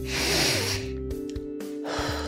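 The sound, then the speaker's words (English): A deep breath drawn in, a loud airy rush over the first second, then quieter breathy sounds with a steady low hum underneath. “Deep breath. I keep needing to take deep breaths, center myself”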